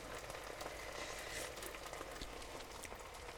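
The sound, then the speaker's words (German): Curry is just starting to simmer in a pot, making a quiet, steady bubbling hiss with faint scattered pops and no voices. “So, jetzt fängt es hier schön an zu köcheln.”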